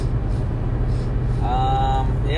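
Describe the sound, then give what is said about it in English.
Car driving home on the road: a steady low rumble of engine and tyres runs unbroken through the whole stretch. “And now we're driving home. Here we are. Yeah, now it's now.”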